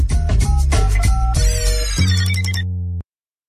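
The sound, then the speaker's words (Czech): Skype incoming-call ringtone: a bright electronic melody of quick tonal notes that ends in a sustained chime and cuts off abruptly after about three seconds. “vidím, že nám tady volá posluchačka přes Skype”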